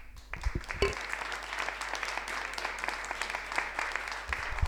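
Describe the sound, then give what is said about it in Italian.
Audience applause at the close of a talk: dense, steady clapping from many hands that continues for several seconds at an even level. “Io farei un applauso.”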